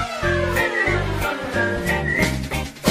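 Someone whistles a bright tune over rhythmic backing music with a steady, thumping beat, the whistled notes moving up and down in short phrases.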